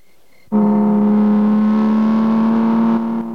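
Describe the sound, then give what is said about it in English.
A car engine accelerating hard at top speed along a road while overtaking another vehicle: a loud, steady drone bursts in abruptly, climbs slightly in pitch, then drops off near the end. “overtakes another vehicle and drives at top speed along the road”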